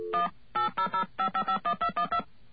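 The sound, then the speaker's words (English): Touch-tone telephone dialing a number: a quick series of short, clear beeping tones, each a two-note chord, in brief bursts with small gaps between them. There is no talk. “Now, let's get on the phone here. Oh, beautiful. Got a dial tone right away. You know, in some countries you have to wait a long time for those things. And let's call”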